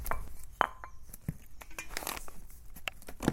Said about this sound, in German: Und dann schneide ich es anschließend mit einem Keramikmesser klein. Das können wir jetzt gleich mal machen.